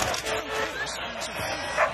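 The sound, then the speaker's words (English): A dog on the pitch during a football match gives a few short, quick yips and barks. The sounds are moderately loud against a steady background. “What's this? It's a dog.”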